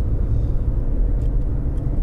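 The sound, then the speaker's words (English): Low, smooth engine rumble of an Infiniti M with a V6 diesel, running while the car is driven, a steady deep drone without sharp changes and no talk over it. “Already that diesel sounds amazing. I had to look down to make sure I was driving a diesel. Yeah. Smoothly waffling away. Nice. Is it a twin turbo V6 diesel? Yeah, it must be.”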